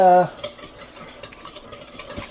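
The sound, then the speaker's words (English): Rapid clinking and scraping of a typical wire egg whisk at work, with many quick, irregular strokes kept at a steady pace and a brief tonal ring at the very start. “Alright, so I'm using an egg whisk for this, and it's just your typical wire whisk.”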